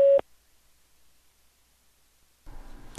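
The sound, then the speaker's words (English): A single short electronic beep from a phone chat line's voicemail prompt: a steady mid-pitched tone lasting a fraction of a second, then near silence until faint noise returns at the end. “Please record your invitation for this caller to join you in a private conversation. Record after the tone.”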